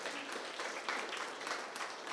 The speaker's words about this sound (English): Let's just give these guys a round of applause as we do that. Let's honor them.